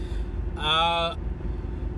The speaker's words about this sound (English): I'm doing a driving podcast, so I'm not quite sure which episode this is.